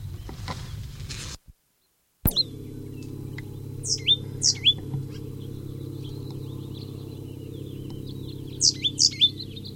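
A bird calls in a pasture with two clusters of three short, high chirps, separated by a few seconds, over a steady low background rumble.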